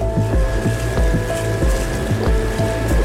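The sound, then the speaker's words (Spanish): A small boat on the sea approaching a large 180-metre ship gives a steady motor drone with many regular, low, pulsing thumps throughout. “especialmente en el momento en que el equipo, en su pequeño bote, entra en contacto por primera vez con el enorme buque de 180 metros de largo.”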